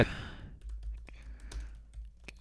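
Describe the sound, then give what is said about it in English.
Typing on a computer keyboard: a few sparse, faint key clicks spread over a couple of seconds against a low, quiet background hum. “Okay, so I'm going to type in that.”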